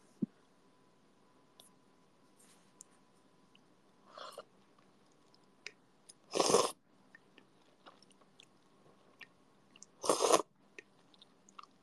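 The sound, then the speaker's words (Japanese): Ramen being eaten, with two loud noodle slurps and a softer earlier one, spread out across a quiet stretch with faint clicks and mouth sounds between them. “まずは、一口いただきたいと思います。”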